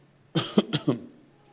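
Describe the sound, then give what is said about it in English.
A person coughs after choking while talking at length, giving a quick run of four harsh, rough bursts that fade quickly, with no speech. “That was not a virus cough, by the way. That was just simply I'm choking on myself while I talk so much.”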